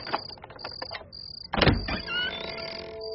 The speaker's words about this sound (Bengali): যদুনাথ কোমর থেকে চাবির গোছা বের করে দরজা খুললেন।